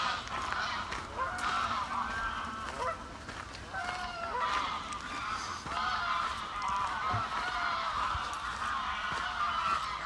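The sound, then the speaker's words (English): A large mixed flock of geese honks by a lake, many overlapping loud calls rising and falling in a constant, busy chorus throughout. “I'm walking past a very large gathering of geese of various kinds, who are obviously being very vocal today.”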